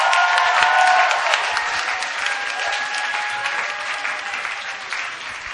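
A church audience applauds as the preacher is welcomed up. The clapping is dense and steady, with some cheering mixed in, and eases slightly over about five seconds.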